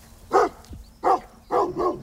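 Three-month-old Maremma guard-dog puppies bark near a flock of sheep, giving four short, sharp yaps, one alone and then three coming closer together.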